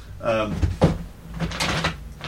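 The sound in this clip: A desk drawer holding a folder of paper scraps slides open, a short wooden knock and rumble amid soft noise, while a voice speaks around it.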